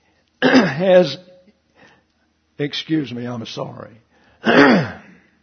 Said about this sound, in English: I hate to clear my throat